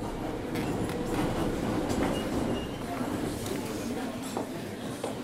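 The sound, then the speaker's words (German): Ride on a Minsk metro train: a continuous rumbling roll of carriages with rattling, clattering wheel noise, steady and loud throughout. “Ich fahre mit der Minsker U-Bahn hin.”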